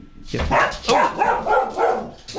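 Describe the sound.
A dog barks in a radio studio: several sharp, mid-pitched barks and yelps in quick, uneven succession, fairly loud and with no talk over them.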